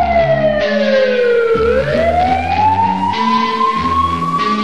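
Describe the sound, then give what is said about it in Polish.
A police siren wails loudly and continuously, its pitch gliding down, then slowly rising again, in a long sweeping tone. “Usłyszysz syrenę, już wiesz, to rządzi miasto.”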